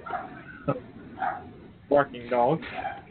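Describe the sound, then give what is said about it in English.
Dogs barking in a few short, sharp bursts with yelping notes between them, sounding muffled and thin. “Barking dogs? Yes. No idea where that's coming from. Barking dogs.”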